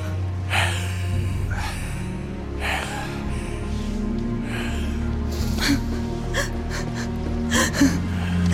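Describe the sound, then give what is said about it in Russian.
Sobbing and gasping from several people weeping over a body in a film scene: irregular breathy gasps and whimpers rise and fall over a steady low hum, with no clear words. “Лукас, Мак и женщина плачут над телом Фаррена.”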